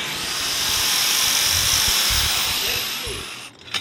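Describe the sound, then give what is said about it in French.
An angle grinder cuts a length of scrap iron bar with a loud, steady, high-pitched grinding hiss for over three seconds, then winds down and stops near the end. “Ça, je coupe avec la meule cette longueur et puis après chauffer et puis à taper à deux. Alors allons-y. Attention, ça chicle.”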